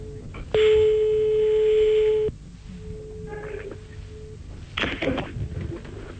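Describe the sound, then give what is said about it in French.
Telephone ringback tone during a phone call: a loud, steady electronic tone lasting about two seconds, then a fainter sustained tone over a noisy, hissy background. “On l'appelle maintenant. Et il y a... Ça sonne.”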